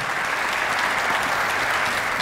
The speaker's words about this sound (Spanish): el aplauso. Homenaje con aplauso, compañero, así es.